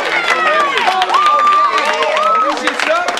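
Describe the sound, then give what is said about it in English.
A studio audience at a talk show applauds and cheers, a loud, continuous wash of clapping mixed with whooping, sustained voices from start to finish. “whenever you can come back with an applause like that, it makes you want to come back.”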